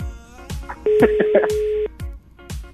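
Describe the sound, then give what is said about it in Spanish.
A landline telephone being dialed with no answer: one steady electronic line tone lasting about a second, with brief talk before and after it. “Y le estoy marcando de línea del DF, ¿eh?”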